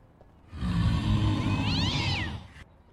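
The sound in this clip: A single drawn-out cat meow rises and then falls in pitch. It sounds fairly loud over a low, rumbling background.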